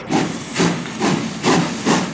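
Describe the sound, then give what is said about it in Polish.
A steam train at a railway station chuffing in a steady rhythm, five loud breathy bursts of hissing steam evenly spaced, with no voices. “Wspaniały jest ten pociąg. Dokąd nas dowiezie?”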